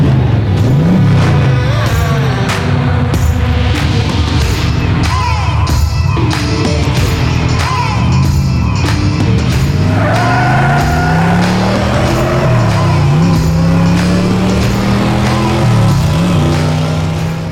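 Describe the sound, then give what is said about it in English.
Car engine revving: loud, repeated sweeps of rising and falling engine pitch in a dense, continuous mix with crowd noise. “smash that pedal, and ride with us down the paranormal highway. Let's debunk and find the truth behind every ghost story in the world of transportation. Welcome to Haunted Garage. Let's rev it.”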